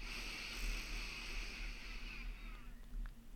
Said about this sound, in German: Also einmal tief einatmen und wieder ausatmen. Wieder tief einatmen.